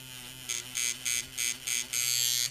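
A tattoo machine buzzes against the skin of a client's leg in a series of short, bright bursts, followed by one longer run. A low steady hum sits underneath.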